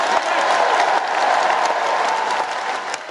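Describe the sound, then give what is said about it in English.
A Labour Party conference audience gives a lengthy standing ovation after a policy announcement on Great British Energy, with loud, dense, continuous clapping that holds steady throughout. “Keir Starmer's big policy announcement, which received a lengthy standing ovation from the audience”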